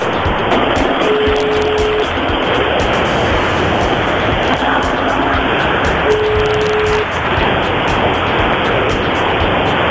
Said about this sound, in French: Avec ce bruit de ventilation qui nous fait, le, qui nous fait du bien. Le bruit de voiture.